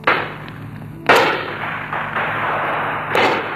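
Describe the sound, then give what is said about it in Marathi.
Gunfire as police open fire on revolutionaries holding a hill fort: two sharp bangs, one early and one near the end, each standing out over a steady rushing noise. “गोळीबार सुरू झाला.”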